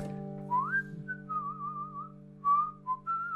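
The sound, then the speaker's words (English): A person whistles a melodic tune: a rising opening note, then several sustained, slightly wavering notes and short phrases, clear and bright over a steady low hum. “I do whistle a bit like that”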